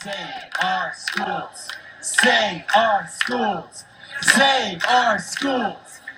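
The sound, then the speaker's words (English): Crowd chanting at a rally near the Arizona State Capitol, protesting a school voucher program: loud, rhythmic shouted syllables repeat in steady bursts for the whole clip. “That sound was from a rally near the Arizona State Capitol back in January, where people were protesting the school voucher program”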